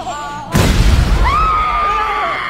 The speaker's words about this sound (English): Wait, stop! There's a bomb in the cake. Don't worry. I used to be a bomb guy. Everyone stand back!